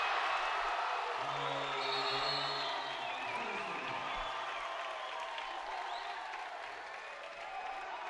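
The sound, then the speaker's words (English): A men's college basketball crowd cheers and applauds after a slam dunk, a faint, broad roar of voices and clapping that holds, then slowly eases toward the end. “Nothing gets a crowd more fired up than a slam dunk.”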